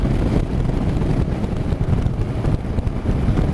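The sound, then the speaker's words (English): Riding a 2019 Honda NC750X motorcycle in fifth gear: a low, steady engine drone mostly buried under heavy, buffeting wind rush, continuous and fairly loud throughout. “Fourth gear. Again, fifth gear now, look.”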